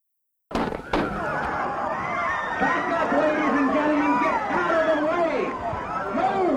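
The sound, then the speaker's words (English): Gunshots from the 1972 shooting of George Wallace at a Maryland shopping center campaign stop: sharp cracks ring out at the start, followed by a clamor of crowd voices and commotion. “George Wallace was shot down this afternoon as he campaigned in Maryland, not far from Washington. The 52-year-old Wallace had just finished talking to a crowd at a shopping center and had stepped from behind a bulletproof podium when the shots rang out.”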